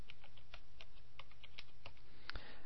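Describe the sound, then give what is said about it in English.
Keystrokes on a computer keyboard as a keyword is entered: many soft, evenly spaced clicks at a steady pace, faint throughout, with one louder clack near the end. “So let's type in a keyword here. Now, since scrapbook is my target niche, I'm going to enter the keyword here.”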